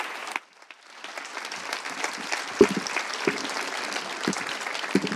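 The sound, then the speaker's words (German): An audience applauds a poet as she walks to the front at a poetry reading. A short sound and a brief lull come first, then steady clapping builds and carries on at a moderate level. “Applaudiert richtig, richtig laut, bis sie hier vorne ist.”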